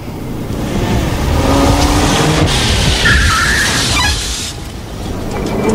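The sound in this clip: A car brakes to a stop on a city street with a loud rush of engine and tyre noise, a brief skidding squeal sliding downward before the sound eases.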